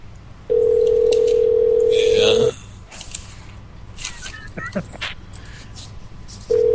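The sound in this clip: Telephone tone while a call is placed: a steady, loud single-pitched tone holds for about two seconds, then gives way to faint clicks and creaks before the tone returns at the end.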